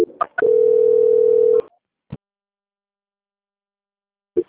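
A telephone tone plays while a call is transferred: one steady, loud pitched tone lasting about a second, with short clicks before it and a few isolated clicks after it in otherwise silence.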